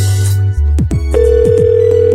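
Telephone line tones on a test call to a job vacancy: a steady electronic tone breaks off, then a different sustained tone takes over, with short chirps recurring throughout.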